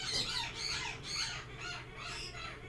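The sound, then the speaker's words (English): Pet birds squawk in several harsh, raspy, high-pitched bursts, fairly faint and unbroken by talk. “I love your birds”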